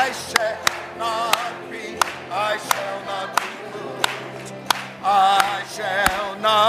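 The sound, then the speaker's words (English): People clap their hands in steady time along with a sung gospel melody. Sharp single claps land at an even beat of roughly two-thirds of a second across the whole clip, over the sustained singing voices. “let's all sing it and clap our hands.”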